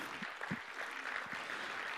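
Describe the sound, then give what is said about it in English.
A church audience applauds, a soft, steady patter of many hands clapping that lasts the whole two seconds without a break. “we just want to applaud you and celebrate you, thank you and honor you. How about you put your hands together?”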